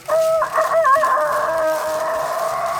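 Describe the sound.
Rooster crowing played during a lottery-style number draw: a loud crow with a wavering, broken opening that settles into a long, steady sustained note.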